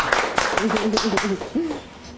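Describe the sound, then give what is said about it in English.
Scattered hand claps from an audience at a chef's cooking demonstration: a handful of sharp, separate hits heard under a voice that keeps speaking. “How about a round of applause for Sam?”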